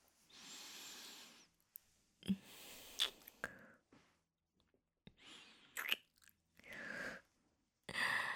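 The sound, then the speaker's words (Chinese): Soft kissing on the neck: very faint wet lip smacks and small clicks come in several short bursts, with breathy hiss and pauses of silence between them and no talking. “来，臣亲亲你的脖子。”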